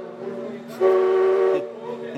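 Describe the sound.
A passing train blows its whistle: one sustained, loud, steady harmonic blast rising out of a continuous low rumble, then fading back into the background noise.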